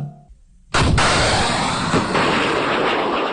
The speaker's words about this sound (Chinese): 随着一声巨响，火光迸发，官兵们发射的反坦克导弹精准命中目标。